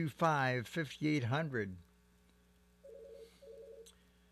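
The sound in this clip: Telephone keypad button tones sound during a call that gets cut off: a voice talks first, then two short, steady electronic beeps follow in quick succession over a faint hum.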